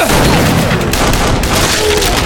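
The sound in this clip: Gunfire exchange involving a short-barreled shotgun: a dense, continuous barrage of loud booming shots that blur together with no clear pauses, sustained for the full length.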